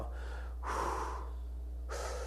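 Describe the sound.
Breathing through the nose during a counted meditation breathing exercise, heard as two soft, airy breaths in succession, with a voice speaking briefly and quietly.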